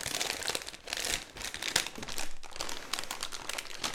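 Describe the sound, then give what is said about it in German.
Crinkling and rustling of packaging as a heavily wrapped parcel is unwrapped. Irregular crackles and crumples run continuously throughout, fairly quiet, with no voices. “Und jetzt packe ich das aus.”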